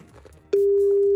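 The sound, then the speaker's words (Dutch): A telephone busy tone heard while calling a family doctor: a loud, steady, single-pitched tone cuts in abruptly after a quiet background and holds to the end. “Ja, ik zal mijn eigen huisarts eventjes gaan bellen om te vragen of die dat herkent en dat zou kunnen verklaren. Ja. Het is altijd druk, hè?”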